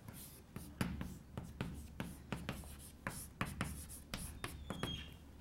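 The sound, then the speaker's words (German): Writing on a board during a lecture: many short, scratchy strokes and taps in a quick, uneven rhythm, each a brief rasp, continuing steadily without talk. “Schreibe ich es erstmal an, Literatur.”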